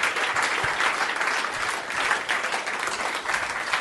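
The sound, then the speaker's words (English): Loud audience applause at the close of a live comedy show, a dense, continuous wash of clapping that stays full and steady throughout. “let's have a big round of applause for Chris Mish and Matt Stewart's 5 Disgusting Mysteries.”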